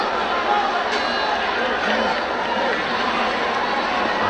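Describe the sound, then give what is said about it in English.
A large WrestleMania Night 2 arena crowd reacts in upset, a loud, continuous roar of many voices murmuring and shouting together, dense and sustained throughout with no single voice standing out. “And you can hear the crowd right now, and they are just extremely upset with what's going on.”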